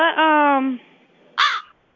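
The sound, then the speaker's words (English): A crow caws inside a room: one long, drawn-out harsh call, then after a pause a shorter, brighter caw, both fairly loud against near silence. “what is that I keep hearing? Oh, that's the crow. You have a crow?”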